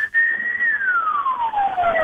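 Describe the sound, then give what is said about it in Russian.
Siren of a passing vehicle: a single loud, steady wailing tone that holds briefly, then slides smoothly and continuously downward in pitch. “Вот что за сирена там? Вот что это проехало?”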